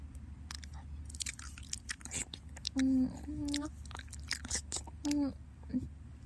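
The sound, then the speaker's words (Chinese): Wet mouth sounds from ear-licking ASMR: many soft smacks, clicks and slurps in an irregular stream, broken by a few short, low hummed vocal murmurs. “舔您的耳朵的声音呀。试试看。”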